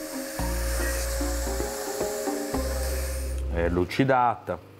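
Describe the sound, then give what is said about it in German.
A machine whirs steadily as it polishes a hardened knife blade, a continuous humming grind broken by a few brief clicks. The machine sound gives way to a voice speaking near the end. “Die fertig gehärtete Klinge wird nun an der Maschine poliert.”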